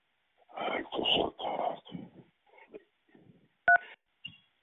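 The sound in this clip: A single short telephone keypad tone on a chat-line menu, a clean two-note beep that follows a stretch of speech and some quiet line noise.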